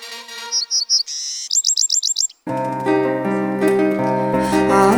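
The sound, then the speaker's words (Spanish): High, rapid chirps of a golden hummingbird come in quick bursts: a few short calls, a brief trill, then a fast run of repeated chirps. Music then starts and continues to the end. “Llegó volando un colibrí dorado que trajo a nuestro altar un nuevo amanecer.”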